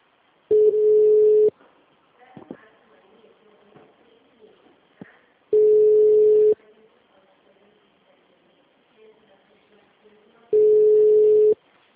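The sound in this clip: Telephone tone after a dropped call: three loud, steady beeps of about a second each, evenly spaced about five seconds apart, with faint scattered background sounds between them.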